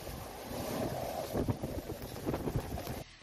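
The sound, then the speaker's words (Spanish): Strong storm wind gusting at up to 119 km/h in Nules, Castellón: a steady loud roar with buffeting gusts that stops abruptly near the end. “Así soplaba el viento en Nules, donde se han registrado rachas de hasta 119 kilómetros por hora”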